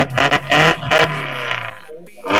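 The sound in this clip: A racing car engine roars at a motor race, a rally-style car, in loud repeated revving surges over a steady low drone.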